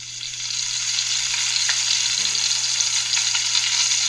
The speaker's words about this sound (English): That is the sound of sizzling bacon